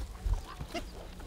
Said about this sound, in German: Aber immer noch köstlich für die Schweine. Guck mal, wie sie gleich suchen kommen. Die wissen genau, was schmeckt.